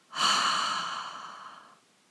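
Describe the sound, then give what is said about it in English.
A breathy exhale through the mouth during a guided meditation breathing exercise: one soft, airy rush of breath that swells quickly and fades over under two seconds, with no talking. “double exhale through the mouth. Again, double inhale. Tense and hold, and double exhale.”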